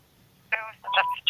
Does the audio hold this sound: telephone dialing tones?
yes

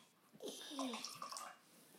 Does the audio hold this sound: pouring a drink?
yes

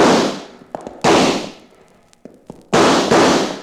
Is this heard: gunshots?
yes

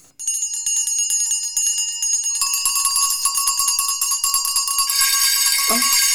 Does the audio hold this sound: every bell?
yes

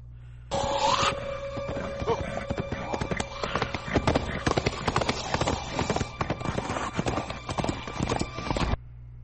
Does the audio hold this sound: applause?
no

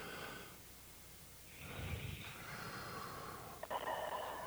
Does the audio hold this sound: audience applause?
no

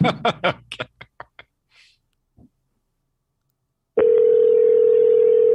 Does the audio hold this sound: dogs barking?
no

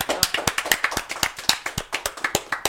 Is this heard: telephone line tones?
no

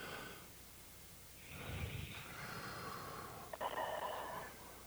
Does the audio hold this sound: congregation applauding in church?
no

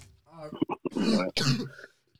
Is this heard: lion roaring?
no

